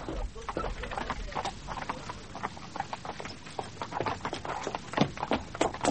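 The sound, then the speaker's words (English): Hooves clip-clop as a horse-drawn carriage arrives, with many sharp, irregular hoofbeats tapping over a low rumble. The carriage has been having trouble with its harness. “What's happening out there? I say, it's my uncle's carriage.”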